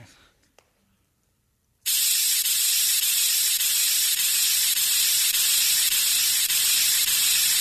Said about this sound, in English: They ought to make these paint sprays with a weather vane on them.